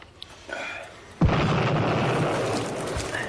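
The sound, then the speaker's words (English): A big trench mortar explodes in one sudden heavy boom after a quieter opening second, followed by a sustained, loud rumbling roar that holds to the end. “That was a big trench mortar.”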